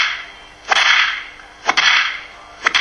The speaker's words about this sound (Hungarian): Vannak többfajta díszpattogások, van az a kanászpattogás,